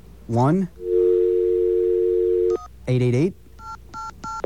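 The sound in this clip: A telephone dial tone while a customer service number is dialed: a steady hum, then a few short keypad beeps. A voice talks before and after the tone.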